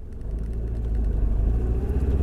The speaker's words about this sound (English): Okay, so I'm driving up to the park now.